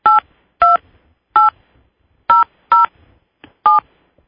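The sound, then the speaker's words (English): Telephone keypad tones entering a PIN and then the pound key on a conference-call line: six short, clipped DTMF beeps in an uneven rhythm, each a bright two-tone chirp, with no talking. “saying your pin followed by pound.”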